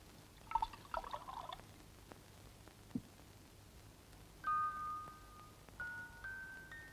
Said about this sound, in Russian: Налей водки.